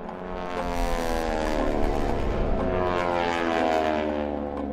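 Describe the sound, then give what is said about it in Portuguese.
Several propeller aircraft fly overhead, their engines producing a loud, sustained droning hum rich in steady harmonics. The sound swells slightly and holds throughout without voices. “Os aviões dirigem-se para sul.”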